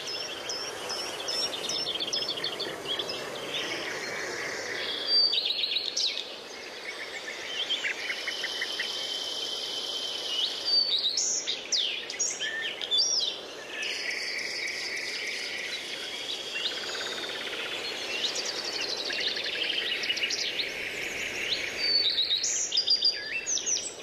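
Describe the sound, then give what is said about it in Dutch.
Lesser whitethroat song at the edge of woodland and water in coastal dunes: a hectic, chaotic run of busy high chirps and twitters that continues without pause for the whole stretch at a steady, moderate loudness. “Het is wel best wel een hectische, of wel een beetje chaotische zang die de braamsluiper heeft.”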